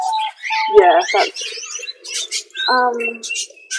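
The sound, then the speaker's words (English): Canaries and small doves, including peaceful doves and diamond doves, chirp in an aviary with quick, varied tweets and twitters crowding together. The calls are fairly loud, with short bursts and gaps. “so the first aviary is the canaries, and there's a couple of peaceful doves, I think it's peaceful doves, and diamond doves in there too.”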